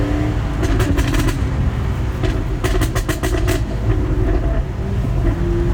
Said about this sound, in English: What a privilege this morning to be driving around Lerwick in a priceless Jag. We'll just make a bit of noise again for your listeners.